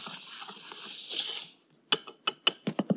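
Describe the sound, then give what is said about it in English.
A whisk stirs dry ingredients in a bowl: almond and mochi flour, salt, baking powder and xanthan gum. A scratchy, rustling swish gives way to a brisk run of several sharp clicking taps against the bowl. “a quarter cup of almond flour, but you could use oat flour or almond and oat together, and salt and baking powder, and we're whisking.”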